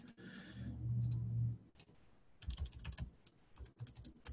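Keystrokes on a computer keyboard as a short note is typed, an irregular run of many light, quiet clicks arriving in quick clusters with brief pauses between them.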